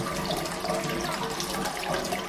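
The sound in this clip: Hot water runs from a tap into a flooded bathroom, a steady, loud rushing gush of water that never pauses.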